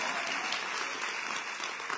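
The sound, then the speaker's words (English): An audience claps during a speech about community organizing on Chicago's west side: faint, steady applause with dense, even clapping that holds through the moment and has no talk over it. “Don't clap for that.”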